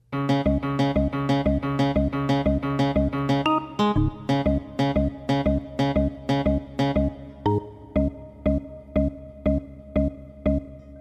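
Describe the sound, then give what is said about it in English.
Synth-pop-like electronic music made by sonifying DNA code: a steady, repeating pulse of bright synthesized notes over a bass line, growing slightly quieter toward the end. “And he sonified DNA. That was DNA. So that was the sound of DNA.”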